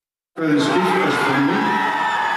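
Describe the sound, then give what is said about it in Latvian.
Crowd cheering from referendum opponents in Iceland greeting the results at night: loud, dense shouting and cheers that start abruptly after a short silence and hold steady to the end. “Sarunu pretinieki šonakt ar ovācijām sagaidīja referenduma rezultātus.”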